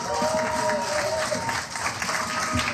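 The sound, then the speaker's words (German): Audience applause after a song performance, a dense, continuous clapping with a few voices mixed in, steady in level throughout. “Ich finde, das ist noch ein extra Applaus wert.”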